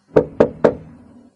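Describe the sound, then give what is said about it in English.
Three knocks on a wooden door, sharp and evenly spaced, each with a short hollow ring that fades quickly, alone with no voices. “I went along the corridor to her room and knocked.”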